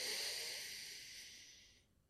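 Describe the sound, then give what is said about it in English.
A single deep, full breath drawn into the stomach and released, heard as a soft, airy hiss. It is fairly quiet and fades away over about two seconds. “A full, powerful breath right into your stomach.”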